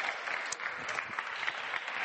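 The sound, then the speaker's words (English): Audience applause for volunteers after a group demonstration, a steady, even patter of many hands clapping throughout, fairly faint and without talk. “Okay, clap, give them a good clap.”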